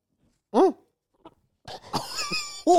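A person gags while attempting to swallow a large bite of food in one go: a short, loud retching burst, then a faint click, and after a pause a stretch of strained, uneven vocal noises.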